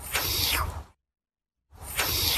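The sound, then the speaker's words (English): Ostrich hiss: two loud, broad, breathy hissing bursts separated by a short stretch of silence. “Ostriches make a few different types of sounds. One was coded as an ostrich hiss. Listen to this.”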